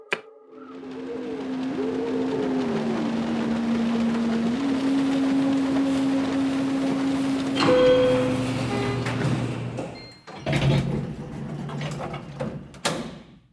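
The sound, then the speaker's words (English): An elevator arrives after its button is pushed: a long, steady mechanical hum with a wavering tone that cuts off near the end, followed by a short burst of rattling, clunking noise. “Look, an elevator. I don't remember Carmen mentioning an elevator. Me either. But it's better than the stairs. Push the button.”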